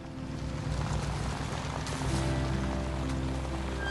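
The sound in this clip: Rain falling outside a house, a steady soft hiss of drops that runs evenly throughout beneath sustained music tones.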